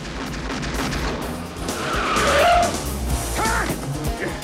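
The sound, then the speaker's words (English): Tyres skid and squeal as a four-wheel drive car speeds off, with a couple of brief screeching tones rising out of a loud, continuous engine and road roar. “Andrea and Storm leap into the four-wheel drive. Driving out, they're shot at by a couple of gunmen on the roof.”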